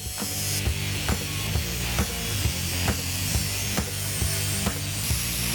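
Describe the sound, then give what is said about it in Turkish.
A metal sheet is cut with a hand tool during bodywork repair on a patch panel: a steady mechanical rattle with a low hum, broken by regular sharp clicks about twice a second. “Böylece levhayı sadece iki yerinden keseceğim.”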